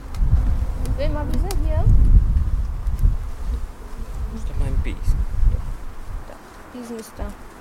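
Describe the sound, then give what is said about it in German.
Bees buzz around an open hive while a queen is being handled during beekeeping work. A steady insect drone with brief higher-pitched whines runs throughout, under people talking. “Die Bienen hier also ransetzen, damit sie nicht quetschen.”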